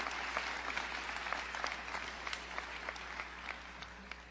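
Faint applause from a Princeton freshman assembly audience welcoming a professor to give an evening lecture. The steady, even clapping has individual claps poking through and eases off slightly toward the end.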